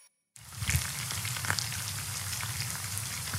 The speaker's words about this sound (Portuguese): Só de ouvir esse som, eu me lembro do cheiro da cebola refogada, do alho fritinho, que delícia.